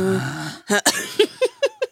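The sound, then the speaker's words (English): A woman's voice imitates a suppressed cough: a short voiced sound, then a rapid series of clipped, breathy bursts, each stifled and cut short. “When you try and sneak a cough out,”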